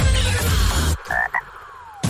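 Frog croaking: a couple of short, nasal croaks sound after a loud, rushing noise cuts off abruptly, with a fainter swell of noise returning at the end.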